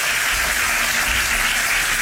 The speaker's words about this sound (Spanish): Una ovación que ha durado bastantes minutos